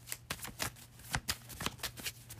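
Tarot cards being shuffled: a series of quick, faint papery snaps and riffles in an uneven rhythm, alone without talk.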